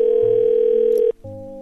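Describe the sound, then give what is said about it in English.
A telephone dial tone sounds while a three-way call is placed: a loud, steady tone cuts off briefly, then a new steady tone takes over. “I'm just going to put Ron on three-way if you don't hang up the phone. Go ahead, put Ron on three-way. Oh, watch me. I will.”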